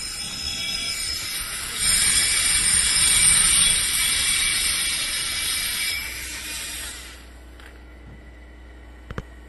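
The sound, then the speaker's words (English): A gyroscope is started up in the middle of a demonstration, making a loud mechanical whirring hiss that swells, holds steady, then slowly fades away, with a couple of faint clicks at the end. “So right now he's starting the gyroscope up in the middle.”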